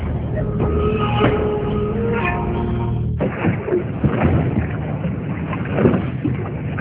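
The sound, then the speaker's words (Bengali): Boat moving on water at night: a steady wash of low rumbling noise throughout, with a humming, engine-like tone during the first half that then drops away. “সেখানে বহু কষ্টে একটা নৌকা জোগাড় করে আমরা আমাদের পটের উদ্দেশ্যে রওনা দিই।”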